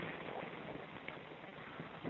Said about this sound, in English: It's very windy.